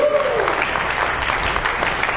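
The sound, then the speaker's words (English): An audience at a church sermon applauds with a steady, even wash of clapping hands. A brief sustained tone sounds at the very start, then the clapping continues alone at moderate loudness. “Give the Lord a hand clap.”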